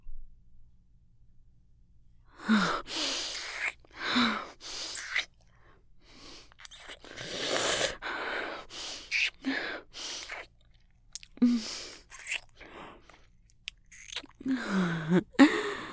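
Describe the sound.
Chewing and eating sounds from a dog working through a meal of food: many soft, irregular wet bites and crunchy chews in uneven bursts, with brief pauses between.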